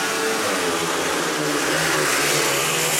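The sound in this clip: Speedway motorcycles of the Dackarna team roar away from the start of a heat, a loud, dense, continuous buzzing engine drone that holds steady throughout with no voices.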